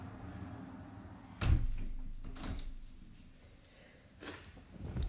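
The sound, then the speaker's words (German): A window being shut, heard as one dull thump followed later by a couple of fainter clicks and knocks, all quiet over a low steady hum, with no talk. “Ich mache kurz das Fenster zu”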